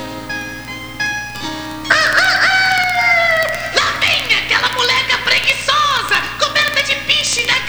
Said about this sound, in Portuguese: O galo da madrasta, que estava em cima de um galho na curva do caminho, quando viu Clotilde